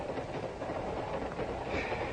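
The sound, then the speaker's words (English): A train rattles along the tracks with a steady, faint rumble and a continuous rhythmic clatter of wheels, with no voices. “A crummy train, no privacy. Decent train, you get a compartment.”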